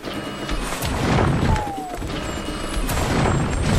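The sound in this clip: Cannon fire in a video game: a few deep, dull booms thud through a dense, steady wash of game noise, with no clear pause between them.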